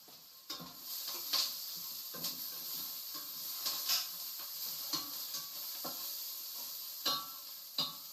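Onion fries in a pan with a steady, faint sizzling hiss, broken by many short scraping and clattering stirs at irregular intervals.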